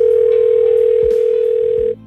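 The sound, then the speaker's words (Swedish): A telephone dial tone plays as a loud, steady single-pitched hum. It holds for almost two seconds, then cuts off abruptly. “nu fick jag i alla fall chansen att ringa upp honom istället och gratulera”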